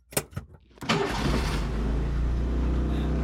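Diesel engine of a right-hand-drive car starting up: a few brief cranking noises, then the engine catches and settles into a steady, low idle rumble.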